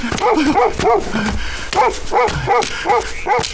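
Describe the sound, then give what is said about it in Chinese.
A dog barks and yips in many quick, sharp bursts, loud and close, with a brief gap partway through before the barking resumes. “不该就不该，不该放狗咬我呀。”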